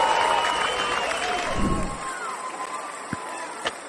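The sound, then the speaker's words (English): Cheering crowd noise greets a show host as he is welcomed onto a live stage, a steady dense roar that fades after a couple of seconds and is followed by a few sharp knocks. “Ladies and gentlemen, put your hands together and help welcome your friend and mine, Kevin White.”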